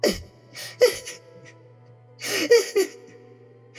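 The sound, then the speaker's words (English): Someone shut inside a box sobs quietly: a few breathy, catching gasps with brief whimpering tones, separated by silence over a low steady hum. “you will hear a quiet sob somewhere in the box”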